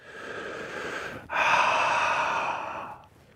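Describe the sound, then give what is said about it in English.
A deep breath drawn in and then let out during a yoga session: a steady, airy inhale, a brief pause, then a longer and louder exhale that tapers away. “Deep breath. Exhale.”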